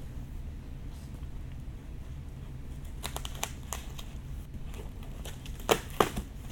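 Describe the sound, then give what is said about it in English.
A pocket knife cuts through regular packing tape on a standard white cardboard shipping box: a few short scratchy slices and crinkles over a faint steady background, ending with two sharper snaps. “So I'm opening the box because this knife just cuts through anything.”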